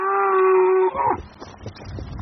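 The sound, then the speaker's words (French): A cow moos from a herd of crossbred cattle, bred from three breeds, in a field. The single call is a long, loud, steady low bellow that drops in pitch at the end. It then gives way to faint, scattered rustling. “Ici, c'est des vaches issues d'un croisement de trois races.”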